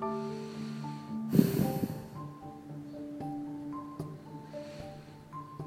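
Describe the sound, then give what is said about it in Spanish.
A slow, breathy exhalation during meditation practice rushes out once near the start, then fades. Soft, sustained musical tones continue underneath. “vuelvo al foco de la exhalación, del sonido de la exhalación.”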